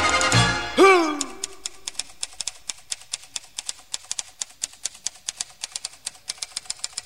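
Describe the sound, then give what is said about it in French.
A typewriter clacks through a long, even run of many crisp key strikes, following a brief ringing tone at the start. “Lettres rouges et noires, moi j'en ai assez, de taper, taper toute la journée.”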